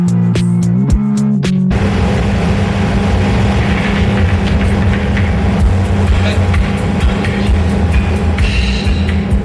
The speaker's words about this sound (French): On va rouler longtemps comme ça. Jusqu'à Saint-Jean-de-Luz. Non, je veux dire avec les pneus crevés.